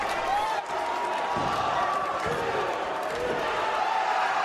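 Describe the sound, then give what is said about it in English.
A crowd cheering at a wrestling show, a continuous loud roar of many voices with scattered shouts and no pause. “He watches thoughtfully as others around him jump to their feet and cheer.”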